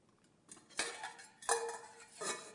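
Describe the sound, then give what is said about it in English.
A pot and pan are handled as cookware, with three clanking knocks of metal rising out of a soft clatter, faint and without talk. “the pot and pan. If I do that, does anybody know what this is? What type of cookware that is?”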